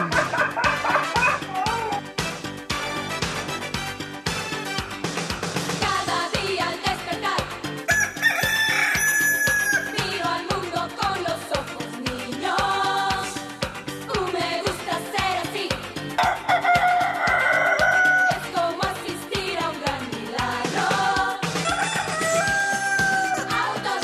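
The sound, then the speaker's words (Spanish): A rooster crows several times, its drawn-out calls rising and falling in pitch over a dense, busy background. “es miércoles y el gallo lo sabe”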